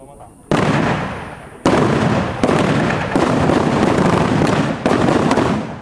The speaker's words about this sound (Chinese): 也让学员从中体验实战射击的临场感。射击后并分析弹着点。使学子们对射击技巧以及军人保家卫国的意义有进一步的认识。 全线预备。